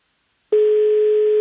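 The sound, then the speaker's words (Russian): A telephone ringback tone sounds while a caller waits for an answer: after a moment of silence, one steady, mid-pitched electronic tone starts and holds evenly to the end, with no voices. “8 гудков. Сколько же можно ждать? Вот мы 8 гудков дали и уже хотели класть трубку,”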